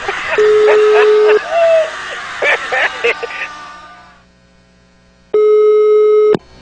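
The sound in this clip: Telephone tones as a call is placed: a steady electronic tone sounds, breaks off for voices and clatter, then returns as one long tone near the end.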